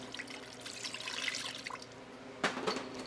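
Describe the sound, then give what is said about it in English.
Water poured into a straight-edge frying pan holding two pounds of ground pork, a soft, continuous splashing pour that ends with a brief, louder splash. “So what I have is a straight-edge fry pan, and it's really simple. We're just going to add 2 pounds of pork, ground-up pork, a cup and a half of water,”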